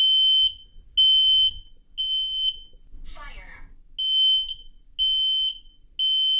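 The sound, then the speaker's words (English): A home smoke alarm being tested with its button gives a steady series of loud, piercing high beeps in an even rhythm. A brief voice breaks in midway during a pause. “That's a smoke alarm in my house. After my son presses a button to test it.”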